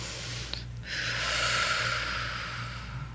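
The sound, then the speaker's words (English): A person breathes in deeply during a guided breathing exercise: a long, airy inhale that swells and holds for a few seconds over a low, steady hum, with no talking. “And you're going to breathe.”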